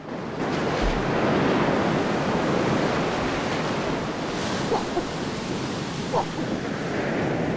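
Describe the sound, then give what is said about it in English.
Sea waves wash over the shallows in a steady, rushing surf that continues without a break, with a few faint, brief splashes rising above the wash. “She stumbles in the shallows, and rippling white spumy waves wash over her.”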